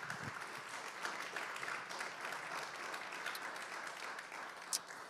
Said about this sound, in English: Can we show our appreciation to the praise team for blessing us week after week, especially tonight for the worship, and just applaud and